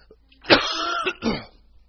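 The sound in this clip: A person coughs during a talk in front of an audience: two rough, throaty bursts, the first longer and the second shorter after a brief pause, with no talking over them.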